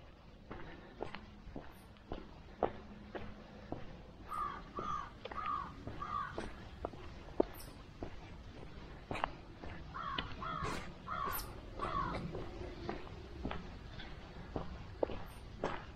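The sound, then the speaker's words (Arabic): Crows caw repeatedly in short clustered bursts of harsh calls during a morning walk, while steady footsteps tap along throughout. “مع زقزقة الغربان،”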